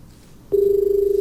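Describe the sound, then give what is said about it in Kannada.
Incoming telephone call on a radio phone-in line, a steady mid-pitched tone with a slight pulsing flutter that starts abruptly halfway through after quiet hiss and holds to the end. “ಮುಂದಿನ ಕರೆ ಬರ್ತಾ ಇದೆ, ಮಾತಾಡೋಣ.”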